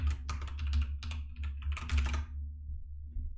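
Code is typed on a computer keyboard in quick, clattering bursts of keystrokes with short pauses, over a low steady hum, then trails off into a few last taps.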